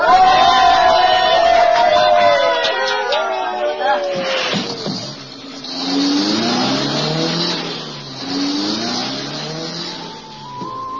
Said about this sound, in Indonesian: Pak Supir, hidupkan busnya. Bawa cepat ke kantor polisi.